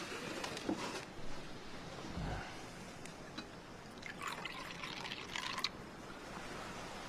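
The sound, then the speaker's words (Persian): Tea is poured for a grand vizier, a faint, steady trickle of liquid running for several seconds. “وزیر اعظم، اجازه بدید براتون بریزم.”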